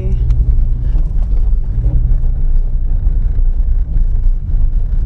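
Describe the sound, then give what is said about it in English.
A car drives on an old brick road with grass growing through it, giving a loud, constant low rumble of tire and road noise. Some wind noise runs under the steady drone the whole way through. “We're driving on Brick Road, which has lots of grass growing in it.”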